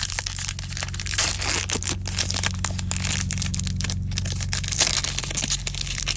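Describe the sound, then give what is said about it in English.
The wrapper of a Magic: The Gathering booster pack is crinkled and torn open in a dense, continuous crackle lasting several seconds over a steady low hum. “So I stopped and got a booster of magic cards, and here it is. I'm going to open it up and do another one of these.”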